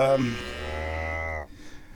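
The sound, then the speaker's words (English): A cow gives one long, low, steady moo that cuts off abruptly, followed by faint background noise. “You like all the moo cows? They're so nice.”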